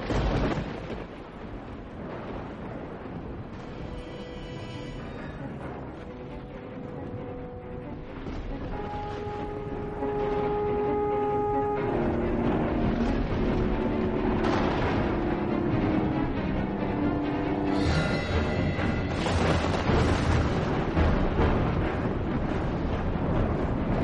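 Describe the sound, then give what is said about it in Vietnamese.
Rumbling thunder in a frightening lightning storm, a continuous low roar that runs through the whole clip and grows louder partway through, beneath sustained musical tones. “Đúng lúc một tiếng sét chói lòa vụt lên, mọi thứ sáng rực. Còn bé Mít đứng đó giữa nền trời sấm sét kinh hoàng.”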